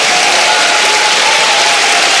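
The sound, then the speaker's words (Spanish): Congregation clapping their hands in praise to the Lord, a dense, loud, steady wash of applause that continues evenly throughout without a break. “Vamos, dele palmas al Señor por eso.”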